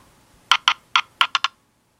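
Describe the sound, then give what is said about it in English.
A four-sided die clatters as it is rolled. Six sharp, bright clicks arrive in quick, uneven succession, the last three close together, and then it goes silent. “Okay, so I'm rolling dice. I've got I listed them in order. I'm gonna roll a four-sided die. Here we go.”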